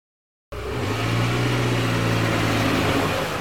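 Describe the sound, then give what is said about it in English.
Engine drone of a jeep driving under towering oak trees beside a broad field: a steady mid-pitched hum that starts abruptly after a moment of silence and holds evenly, with no voices. “The jeep drove under towering oak trees surrounding what appeared at first to be a broad field.”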